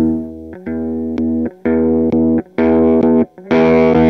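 Overdriven guitar amplifier, played loud on its own, gives thick, fuzzy distorted notes and chords. They come as a series of sustained, buzzing bursts separated by short gaps, and the last one is the brightest and loudest.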